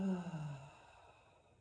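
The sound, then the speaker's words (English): One deep breath out: a soft, sighing exhale that starts at moderate loudness and fades to near silence, heard alone and quiet. “Breathe in again deeply. Breathe in. Breathe out.”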